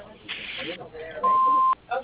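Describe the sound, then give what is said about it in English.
An answering machine beep following a voicemail greeting: a single steady, mid-pitched electronic tone of about half a second, clear and loud, coming after a voice, with a brief voice returning just afterward. “Please leave your name and number at the end of the beep, and I'll get back to you as soon as possible.”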